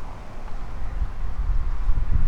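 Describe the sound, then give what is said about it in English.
Wind blowing outdoors, a steady low rushing roar that swells slightly louder toward the end, with no voices. “Oh, here comes the wind.”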